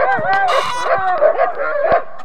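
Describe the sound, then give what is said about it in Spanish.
Dogs barking and howling as they are let loose: a loud tangle of short yelping barks and wavering howls, several calls overlapping over a couple of seconds. “¡Suelten a los perros!”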